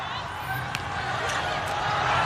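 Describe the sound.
During a Chinese team's table tennis match, the ball is tapped and struck for a serve, a few light, sharp clicks set against a steady background murmur from the crowd.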